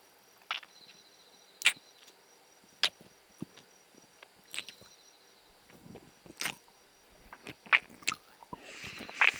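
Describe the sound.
Biting and chewing while eating, heard as sharp, crisp crunches at irregular intervals, with quieter wet chewing between them that grows denser and busier toward the end.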